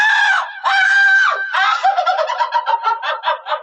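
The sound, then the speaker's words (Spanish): A strange screaming cry of a jungle bird, like a crazed laugh: two long, high wailing calls, then a rapid run of many shorter cackling notes, loud and alone. “se vuelve a escuchar el extraño grito, o aullido de fiera, o risa enloquecida de una mujer. El pájaro Jiva vuelve al lugar.”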